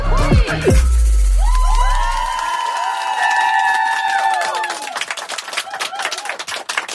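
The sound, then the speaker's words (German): A live studio audience at a radio stand-up show cheers and claps: a loud low burst opens, then sustained whooping voices that dip in pitch at their ends, with scattered sharp claps continuing after the cheering thins out. “Ja, wenn es Jubelschreie gibt, ihr könnt es ruhig weitermachen, nur weil ich rede.”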